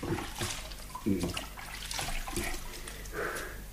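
Running water splashes as hands are washed beneath it, giving a continuous wash of water with irregular louder splashes and bursts for a few seconds.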